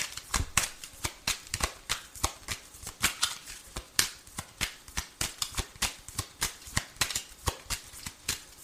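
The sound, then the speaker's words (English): Playing cards being handed over, a steady run of many crisp, quick snaps and flicks at an even rhythm, with no voices. “May I have 2 more cards,”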